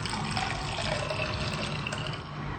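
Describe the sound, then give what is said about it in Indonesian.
A stirred mixture for gado-gado is poured into a prepared container, giving a continuous splashing, gurgling flow of liquid that holds a steady level for the whole two and a half seconds. “Tinggal diaduk rata, keluarkan, dan tuang ke wadah yang telah disediakan.”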